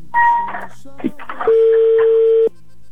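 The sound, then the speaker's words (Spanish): Telephone tones while a call is being dialed: a short higher beep, then a long, steady lower tone lasting about a second, with people talking between and around the tones. “Voy marcando, ¿eh? A ver si tenemos suerte. Gracias. Estoy marcando.”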